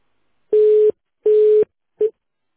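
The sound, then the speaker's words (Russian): A telephone busy tone sounds after a dropped call: a steady single-pitched beep repeats twice at even intervals, and a third beep is cut short, with silence between them. “Алло, да, связь прервалась.”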